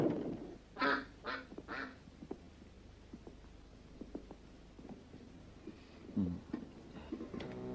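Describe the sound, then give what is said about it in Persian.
Duck quacking: a quick run of three loud, nasal quacks near the start, followed by scattered fainter knocks and a lower, rougher call later on. “این اردک موجود شگفت انگیزیه قربان.”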